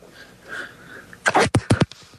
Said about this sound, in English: It was such a dainty sneeze.